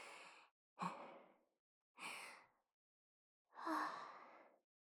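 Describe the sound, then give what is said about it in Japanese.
Deep breathing: four slow, airy breaths separated by silence, the last one the longest, quiet and with no speech. “すまぬ、少し深呼吸をさせてくれ。”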